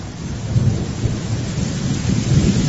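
Thunder rolls through a storm in a continuous low rumble over steady rain, loud and unbroken from start to finish, with no voices.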